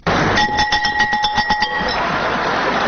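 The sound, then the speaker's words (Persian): School bell rung at a school ceremony in a Kabul high school: a rapid metallic ringing of many quick strikes with bright, sustained tones, heard over a constant noisy background before fading. “رئیس جمهور افغانستان با نواختن زنگ مکتب در لیسه یمانی شهر کابل ابراز امیدواری کرد که زنگ مکتب سبب آرامش، ثبات و تحرک در کشور شده”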